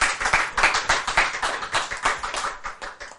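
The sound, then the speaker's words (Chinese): Rhythmic hand clapping from an audience at a Buddhist dharma lecture: many sharp, regular claps in a steady, even beat that stays fairly loud and tapers off at the end, with no talk over it. “赞不赞？拍手，”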